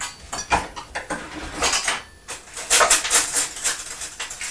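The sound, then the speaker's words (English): Two teaspoons clinking together: many quick, light metallic clicks and taps in an irregular, lively rhythm, fairly bright and clear, with no talk. “These are teaspoons. 2 teaspoons.”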